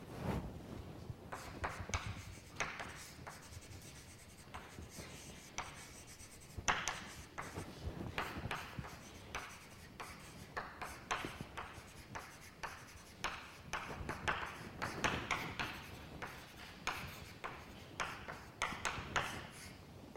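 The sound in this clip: Handwriting during a mathematics lecture on compact spaces, as a statement is noted down: many faint, scratchy strokes and taps of a pen on a surface in an irregular rhythm, with no talk.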